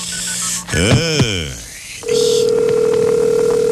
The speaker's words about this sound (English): Let me dial that little missy